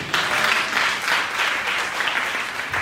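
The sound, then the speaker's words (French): An audience applauding during a church service: loud, steady clapping with a faintly rhythmic pulse, continuous throughout. “Acclame fortement la parole de Dieu.”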